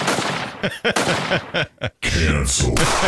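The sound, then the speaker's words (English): A high-powered rifle gunshot: one loud, sharp blast breaks in after a stretch of people talking, and its heavy rumble carries on to the end. “That sounds like a fucking high-powered rifle.”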